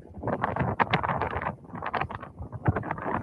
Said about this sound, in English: Because it's really windy, too. Right. It's super windy. The audio is not great.